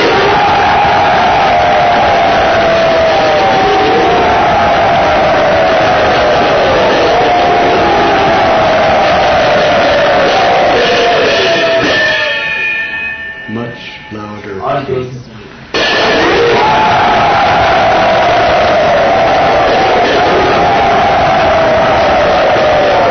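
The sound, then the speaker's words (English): A large crowd chants "Hari Bol" and cheers in welcome, a loud, sustained roar of massed voices with held chanted tones. The noise drops briefly near the middle and then surges back at full strength. “Everyone, wholeheartedly, as loud as you can, by chanting Hari Bol with raised arms, welcome Jananivas Prabhu.”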